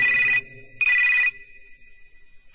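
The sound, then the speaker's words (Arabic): A telephone rings in two long, steady, high-pitched electronic bursts with a brief gap between them, then falls quiet before a third ring begins at the very end. “دق التليفون.”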